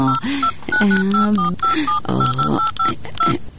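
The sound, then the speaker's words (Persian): Telephone keypad dialing tones: many short, evenly pitched electronic beeps in a quick series as a number is dialed, with a voice sounding beneath them. “تو باش که من یک کار کنم، بعد اجلا جان یک زنگ بزنم.”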